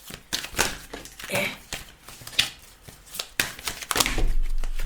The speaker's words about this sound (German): Also jetzt kommen hier so viele Karten raus. Universum eine, dürfen wir das noch wissen? Wir sind offen für deine Botschaft. Misch, misch, misch, misch, misch, misch, wasch.